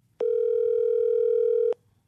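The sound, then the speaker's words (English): A telephone dial tone sounds alone, a single steady mid-pitched hum that holds for about one and a half seconds before cutting off abruptly. “What's May Pop number? I'm going to dial it.”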